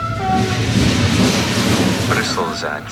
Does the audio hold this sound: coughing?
no